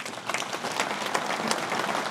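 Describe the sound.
A short round of audience applause for a participant during a talk, a dense, even patter of many clapping hands that keeps a steady level from start to finish.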